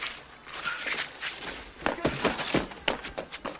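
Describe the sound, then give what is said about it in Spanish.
Staggering running footsteps on a street, many quick, uneven thuds and scuffs over a steady background hiss, growing sharper and denser in the second half. “Horrorizado, Poldek corre tambaleante hacia el fondo de la calle.”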